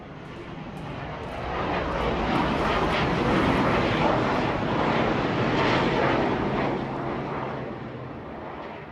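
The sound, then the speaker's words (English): Roar of a Boeing F-18 Super Hornet military jet flying low over a residential neighborhood. The broad, rumbling noise swells, holds loud for several seconds, then eases off, with no voices. “That is a Boeing F-18 Hornet, likely a new model Super Hornet, flying over the Murrayville neighborhood north of Wilmington.”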